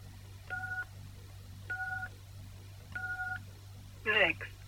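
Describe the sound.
Three DTMF keypad tones from entering a mailbox number on a phone, each a steady two-note beep lasting about a third of a second, evenly spaced over a low hum. A brief, different burst of sound follows.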